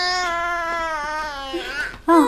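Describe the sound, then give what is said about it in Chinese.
A baby crying: a long, sustained tonal wail with strong harmonics, ending in a shorter, louder, higher-pitched cry. “不哭了，不哭了。”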